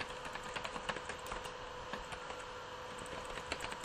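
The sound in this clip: Typing an email address on a computer keyboard into a web form, using a screen reader with a braille display. Many quick, faint keystrokes tap in a steady, uneven patter.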